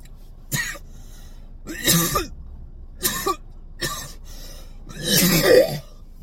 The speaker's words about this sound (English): Coughing up a lung over here and shit, bro.